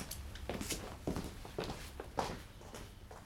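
Footsteps of people walking off together: a steady series of soft, even steps at an unhurried walking pace. No voices are heard over them.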